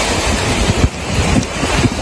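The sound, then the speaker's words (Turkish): Storm waves and strong wind at sea off Akçakoca in Düzce, where a gale whipped up waves of 3–4 metres: a dense, continuous roar of surf with wind buffeting the microphone and low rumbling surges, with no talk. “Düzce'nin Akçakoca ilçesinde fırtına denizi kabarttı. Dalgaların yüksekliği yer yer 3-4 metreyi buldu.”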